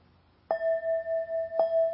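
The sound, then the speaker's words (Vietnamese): A bell used in Buddhist chanting practice is struck a few times. Each clear, sharp strike rings on in a steady, sustained tone with a gentle pulsing waver, alone without voices. “Thì thường thường cái cách chúng ta ở đây là chúng ta thỉnh 3 tiếng, phải không? 3 tiếng chuông.”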